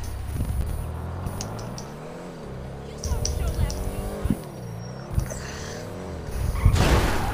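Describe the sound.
A car drives off in the video game GTA 5, its engine revving with whining tones that climb and fall across several gear changes while people talk over it.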